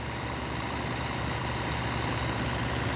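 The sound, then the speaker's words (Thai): Engines of water-pumping pipes draining floodwater from a flooded housing area: a loud, steady, low engine drone with a rumbling, unbroken roar throughout and no talking. “ท่อสูบน้ำพญานาคหรือท่อซิ่ง7เครื่องถูกนำไปติดตั้งกระจายรอบพื้นที่เคหะร่มเกล้านะคะ”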